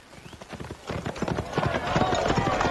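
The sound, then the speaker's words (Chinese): Rapid hoofbeats of a horse galloping along a street, a steady run of quick clattering strikes that grow gradually louder. “李隆基一路上猛抽马鞭，马儿在街道上狂奔，多次欲撞上行人。”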